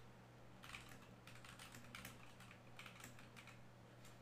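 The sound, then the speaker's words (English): Someone types on a computer keyboard, entering a quick online search. Many rapid, light keystrokes come in uneven bursts, fairly faint over a steady low hum. “Let me type in how long to beat.”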